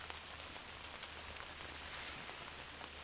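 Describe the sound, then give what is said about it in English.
Steady rain falls in a garden, heard from beneath a large garden umbrella: a soft, even hiss of countless drops, constant throughout with no voices. “I'm outdoors in my garden. It's raining. I'm underneath a huge garden umbrella”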